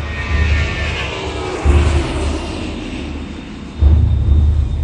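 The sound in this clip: An airplane drones as it flies low just before ditching into water. The steady, deep engine rumble swells in two louder surges, one near the middle and one near the end.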